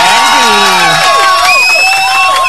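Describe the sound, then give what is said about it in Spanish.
A crowd cheers and shouts in applause, with high voices sliding up and down over one another. The sound is loud and dense from start to finish. “¡Aplausos a esas amistades,”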